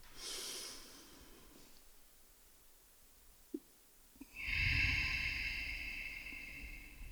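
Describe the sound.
Breaths from people doing a guided breathing exercise together at a live event: a breath fading out, then a quiet pause broken by a couple of small clicks, then a long, strong, airy breath that swells and slowly eases off.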